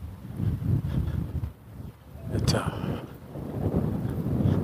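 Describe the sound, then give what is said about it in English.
Outdoor wind gusting across the microphone makes a low, rumbling buffeting that swells and eases irregularly, dipping briefly before building again toward the end. “the wind picks up and blows in my face and threatens a cap”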